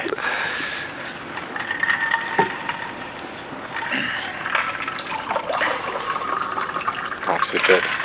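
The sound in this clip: Water being poured, with a steady splashing, trickling flow throughout and a voice talking over it.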